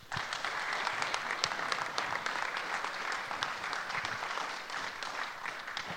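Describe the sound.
Applause from an audience welcoming two hockey players as they come up to the front at an evening event. Many hands clap in a dense, steady patter that holds for the full six seconds, with no talk over it.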